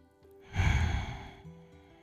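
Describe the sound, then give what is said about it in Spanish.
A slow, deep breath is released during a guided meditation, a soft airy exhale that swells and fades over low sustained tones. “Inhala. Y exhala.”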